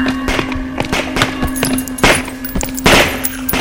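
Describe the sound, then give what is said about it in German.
Gunfire rings out as the infected are shot down in a drama scene: many irregular, sharp cracks and thuds follow one another over a steady low hum, with two louder bursts near the end. “Runter mit den Waffen. Die Infizierten, sie wurden alle erschossen.”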